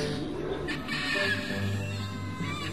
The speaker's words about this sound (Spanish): ¡Esos pájaros van a hacer un hueco en nuestro globo!